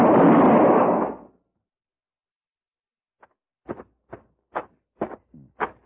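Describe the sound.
A single loud gunshot rings out in a western shootout, a sharp broad blast that rings for about a second before falling silent. A few shorter, softer bursts follow.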